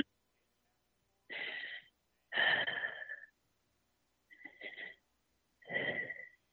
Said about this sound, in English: Can you take a deep breath, inhale and exhale?